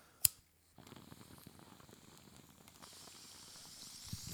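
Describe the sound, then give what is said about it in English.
A bong hit being taken: a sharp click, then steady low gurgling and airy hissing that grows slightly louder toward the end, with no talk. “I'm gonna do this bong rip.”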